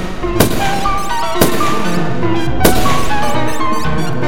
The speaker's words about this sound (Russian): я выхватил револьвер и несколько раз выстрелил в Магнуса